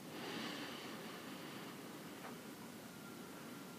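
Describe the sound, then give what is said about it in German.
A slow breath drawn in through the left nostril during a breathing exercise, a faint, airy hiss that swells in the first moment and then holds steady. “Noch einmal so einatmen durch die linke Nasenhälfte.”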